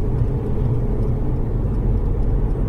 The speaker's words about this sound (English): You can hear the engine's barely rumbling over.